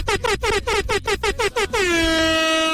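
A horn honks in a rapid run of about eight short, bright, loud blasts, then holds one long, sustained blast to the end.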